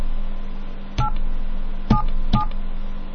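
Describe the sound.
Touch-tone keypad beeps as a telephone number is dialed: three short, crisp dual-tone presses in an uneven rhythm, over a steady low line hum with no voices.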